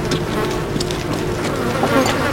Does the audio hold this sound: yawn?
no